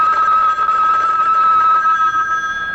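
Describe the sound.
A telephone ringing with a steady, high electronic tone that holds loud and unbroken throughout.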